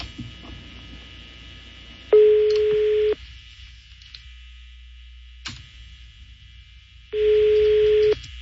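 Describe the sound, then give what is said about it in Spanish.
Telephone line tones as a call is placed and goes unanswered. Two loud, steady, even tones each last about a second and are separated by several seconds of quieter line noise with a brief click between them. “Vamos a marcar otra vez.”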